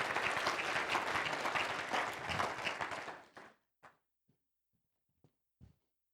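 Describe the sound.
An audience applauds to welcome a speaker before a sermon: dense, steady clapping for about three seconds that then dies away, leaving a few isolated knocks.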